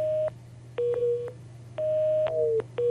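Telephone tones sound after a caller's line drops mid-call: a steady mid-pitched beep switches on and off in uneven repeated pulses over a constant low electrical hum, with no voices.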